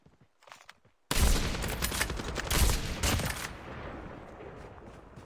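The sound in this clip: Gunfire in a video game, part of a sniper rifle fight. Faint sounds come first, then a sudden loud burst of shots with a few stronger cracks, and it fades into a lingering noisy tail.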